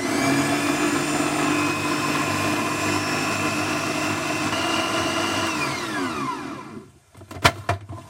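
A food processor whirs loudly and steadily as it blends cooked parsnip with fruit flesh, its motor pitch sliding down as it winds to a stop, followed by a couple of sharp clicks.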